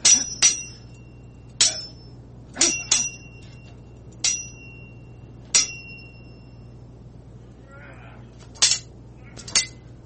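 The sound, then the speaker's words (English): Metallic sword clangs from a sound effect: several sharp, bright strikes spaced irregularly, each with a short ringing tail, over a low steady hum. “Let's do some sword ratchetness, and we'll get out of here. Let's see, where's my sword ratchetness sound effect, actually, before I even try to do this.”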